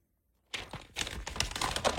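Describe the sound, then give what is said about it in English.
A sheet of paper is crumpled and torn. After a moment of silence, dense, irregular crackling and crinkling starts abruptly and continues as a faint, busy rustle to the end. “crumpling of the sheet. Tossing. Oh, then there's ripping going on.”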